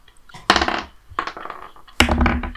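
Dice rolled on a table for initiative in a tabletop role-playing game, three separate clattering rolls, each a sharp impact followed by a short rattling tumble.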